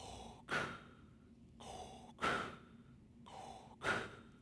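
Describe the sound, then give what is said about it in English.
Mechanical respirator breathing of a masked villain, a film sound effect for a scene where a ship is boarded: three slow, regular inhale-exhale cycles, hissy and resonant with a faint whistling tone, heard alone. “The breath of Darth Vader.”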